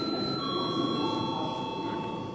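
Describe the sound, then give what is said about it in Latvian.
Steady electric bell rings in a session of the Latvian parliament to call members to a vote, a faint, unbroken tone holding at an even level through the whole clip with no talk over it. “Paldies, lūdzu zvanu.”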